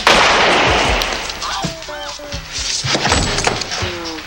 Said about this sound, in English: That man's gonna stab it, so I shot him.